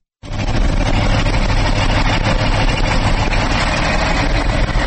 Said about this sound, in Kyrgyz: Каракечеде көмүр алганы келген КАМАЗдар ар кандай себептерден улам 10-20 күндөп, айрым учурда бир айга чейин туруп калат.